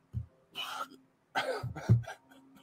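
Coughing from a persistent tickle in the throat comes in a few separate throaty bursts of uneven length.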